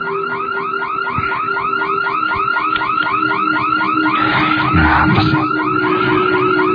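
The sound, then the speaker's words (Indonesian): A hearse's car alarm going off with a loud, continuous string of rapid, repeating warbling chirps at an even rhythm, unbroken from start to end. “aku dikagetkan dengan suara salah satu alarm mobil jenazah yang menyala.”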